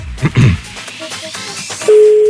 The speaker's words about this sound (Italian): Vediamo se risponde. Vediamo, si chiama Nicola.